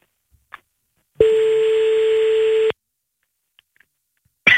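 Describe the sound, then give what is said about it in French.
A single telephone ringing tone sounds as a call is placed: one steady, mid-pitched tone lasting about a second and a half. It sits between stretches of near silence broken by a few faint clicks. “Bon, et on l'appelle. On l'appelle. C'est parti.”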